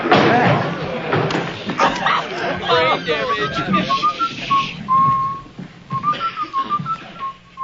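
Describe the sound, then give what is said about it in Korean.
A man in shirtsleeves whistles Tchaikovsky's 1812 Overture as he walks into a classroom. The clear, wavering whistled melody rises out of a murmur of voices in the second half. “차이콥스키의 1812년 서곡을 휘파람으로 불면서 교실에 들어온 와이셔츠 바람의 키팅 선생.”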